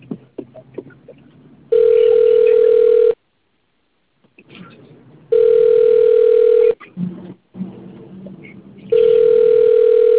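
An unanswered telephone call produces ringback tones on the line: three loud, steady buzzing tones, each lasting over a second, separated by longer pauses filled with faint background noise.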